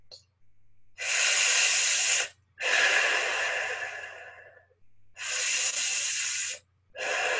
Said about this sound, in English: As I now breathe in, as though sucking in through a straw and breathing out,